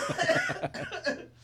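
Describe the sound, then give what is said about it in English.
A short bout of coughing: several harsh, throaty bursts in quick succession, loudest at the start and trailing off toward the end. “And I'm probably going to cough.”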